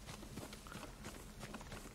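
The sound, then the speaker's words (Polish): A horse galloping in a video game: quiet, rapid hoofbeats in a rolling, even rhythm that carries on throughout, with a faint voice in the mix. “Czy tam, co tam jest? Aha, to koń oczywiście.”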